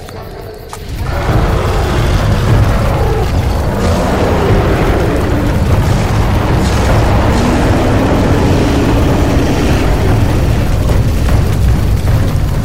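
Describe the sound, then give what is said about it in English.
A large fire roars as it blazes up through dry grass and forest. After a brief quieter moment, a loud, dense, steady rumbling roar starts and holds unbroken to the end. “The fire leapt high to the heavens and the countryside was ablaze.”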